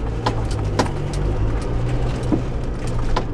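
A car drives slowly around a dry track at night with its spotlight on, giving a steady low engine rumble with faint, intermittent ticks and chirps over it, and no talk.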